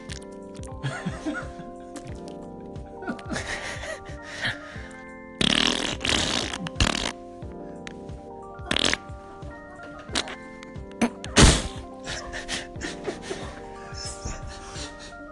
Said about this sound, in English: the wet fart. Yeah. I think we all get a picture of what that's going to sound like, but let's just hear it.